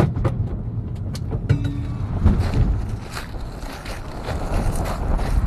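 A car drives away from a research institute toward the edge of town in Tromsø, Norway, with a steady low engine and road rumble, some wind buffeting, and a few faint clicks, without talk.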